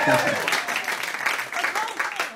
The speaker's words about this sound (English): Let's give it up for Barton Springs right now.